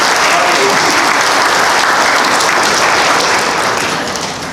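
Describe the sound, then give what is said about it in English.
A group gives a loud, sustained round of applause. The thick wash of clapping holds steady throughout and tapers off in the final moment. “Yay, team! Let's give them a hand.”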